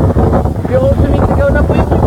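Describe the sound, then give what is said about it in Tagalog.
Strong wind and heavy rain of a storm in Pasig City, Metro Manila, a loud, dense, unbroken roar that buffets steadily from start to finish. “Hindi lang malakas na ulan, kulog at kidlat ang gumambala sa maraming lugar sa Metro Manila nitong linggo ng gabi. Winasiwas din ito ng malalakas na hangin.”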